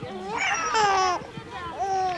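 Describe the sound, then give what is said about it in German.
A baby cries in short wavering wails with a strained, high tone, rising and falling over a couple of seconds at moderate loudness. “Nicht weinen, Baby, ja? Nicht weinen.”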